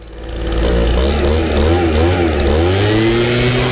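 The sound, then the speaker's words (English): A leaf blower's engine runs early on a Saturday morning, swelling in at the start and then holding a loud, steady droning whine. “There's no way! There's no way your neighbor is out there leaf blowing.”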